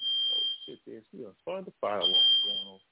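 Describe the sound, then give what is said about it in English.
A fire alarm beeps with a shrill, high, steady tone in two long bursts, while a person talks in the gap between them and over the second one. “But let me put this fire alarm out. Hold on.”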